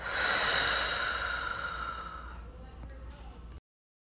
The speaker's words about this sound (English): deep breath in, hold, deep breath out.